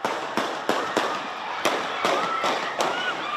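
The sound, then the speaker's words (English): Gunshots ring out during a street celebration after an NBA championship win: a series of sharp, loud cracks spaced at irregular intervals, each ending in a brief echoing tail. “gunshots, chaos, people running for their lives.”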